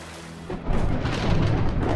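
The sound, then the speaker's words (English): Thunder rumbles during a rainstorm on the African savannah: a low, broad roar that starts quietly, swells sharply after half a second, and then holds steady and loud. “Dramatic forked lightning. Rains on the African savannah.”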